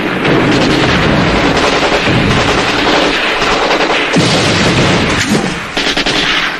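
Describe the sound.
Cannon fire thunders in a dense battle barrage, loud overlapping blasts and heavy gunfire rolling on without pause for several seconds.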